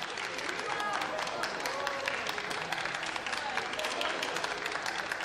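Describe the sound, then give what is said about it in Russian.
Dense, steady applause as Prokhorov claps with hands raised high, many hands clapping continuously throughout, with faint voices mixed underneath. “Прохоров хлопает, высоко подняв руки. Браво!”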